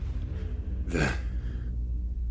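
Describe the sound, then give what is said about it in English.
One short, sharp indrawn gasp, voiced by a person acting out a character in a tabletop role-playing game, loud and brief against a low, steady hum. “what you hear is an indrawn breath from Ekphelia”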